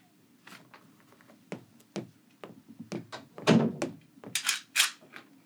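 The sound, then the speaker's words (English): Wooden window shutters being closed and barred: a run of sharp wooden knocks and thuds at an irregular pace, sparse at first and then heavier and louder toward the end. “Now, would you have the kindness to go into your room and bar your shutters?”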